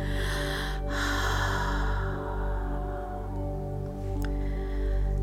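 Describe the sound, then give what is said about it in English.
Deep exhaling during a guided breathing exercise: a long, soft rush of air over a steady low droning tone, with no talk. “On the exhale, the breath leaves the chest, the ribs fall, the belly contracts.”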